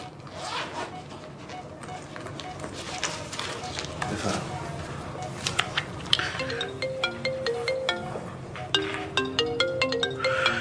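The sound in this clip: A mobile phone ringtone plays bright electronic melodic notes in a repeating pattern through the second half, rising out of busy background noise with voices present.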